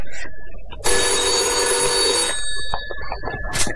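A telephone rings: one long burst of bright, tinny electric bell ringing, lasting about a second and a half, loud over a quieter background that continues after the ring stops.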